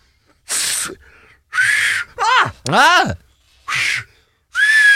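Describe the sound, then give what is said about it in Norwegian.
Finger-in-mouth whistling: several loud, airy blasts, some carrying a thin shrill tone under the hiss, separated by brief pauses, with a lower sliding tone in the middle. “putter da fingrene I munnen Og klarer å plystre med dem”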